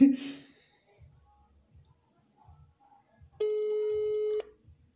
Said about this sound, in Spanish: Ok, está marcando, amigos. Ojalá no conteste, ojalá no conteste. Contesta, contesta.